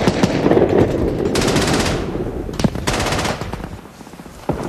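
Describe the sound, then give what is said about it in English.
A Browning automatic rifle fires several rapid bursts of loud, sharp gunfire separated by brief pauses, with a final single crack at the end. “Ryben squeezes the trigger on his Browning automatic.”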